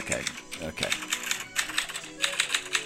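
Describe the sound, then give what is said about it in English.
Typing on a computer keyboard: many quick, crisp key clicks in an uneven, rapid rhythm, moderately loud and close, with short pauses between bursts. “Let me just type this into the machine here.”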